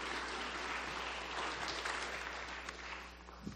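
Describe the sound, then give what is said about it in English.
Audience applause welcoming a guest in a church, a dense, even patter of many hands clapping that holds steady and stays fairly soft throughout. “So don't scare her, but make her welcome. Give her a hand here.”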